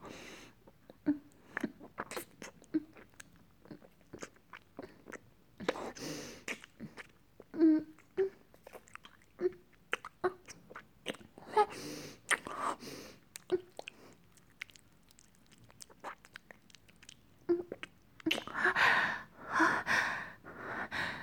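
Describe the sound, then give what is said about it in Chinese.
Wet kissing sounds from a deep kiss with a man: many soft smacks and lip clicks mixed with heavy breathing, in an uneven rhythm, with louder, breathier bursts toward the end. “好久没有这样尽情的和男人接吻过了呢。”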